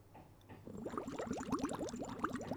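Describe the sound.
Underwater-style bubbling of water during water-drinking play: a soft, steady stream of rapid gurgling bubbles with quick upward chirps, building after a quiet start and continuing for about two seconds.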